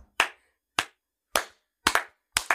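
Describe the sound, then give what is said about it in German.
Hands clapping: a few sharp, loud claps roughly half a second apart, some landing in quick pairs, with silence between them and no voices. “Für dich wäre es wahrscheinlich am geilsten, wenn wir die ganze Folge einfach durchklatschen würden.”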